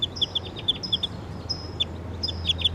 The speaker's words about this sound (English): I hear the wild bird calling in the distance.